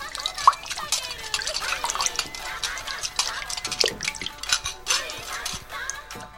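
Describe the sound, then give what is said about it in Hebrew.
Washing dishes: busy, irregular clinks of plates and cutlery mixed with water drips and splashes, a scattering of small knocks and rattles. “תתחיל לשטוף כלים.”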